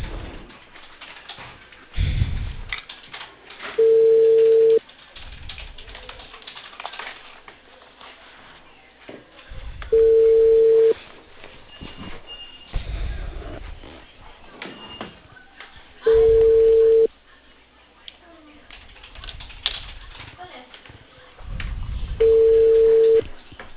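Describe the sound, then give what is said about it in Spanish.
Ringback tone of an outgoing phone call to a Peruvian cable company: four steady, mid-pitched single beeps, each about a second long and roughly six seconds apart, with faint low background noise between them. “Aló, buenas tardes. Estoy llamando de Cable Perú con Héctor Marroquín”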